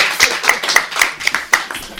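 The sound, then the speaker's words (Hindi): An audience clapping at a live joke-telling show: many sharp, bright claps in a steady, even rhythm, fairly loud, with no voices over them. “तालियां बजाइए एक बार”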